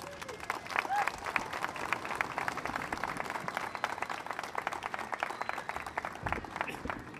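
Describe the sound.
Crowd applause welcoming a special guest at Cedar Point in Sandusky, Ohio, on the opening morning of Planet Snoopy: steady, dense clapping that continues evenly throughout without a break.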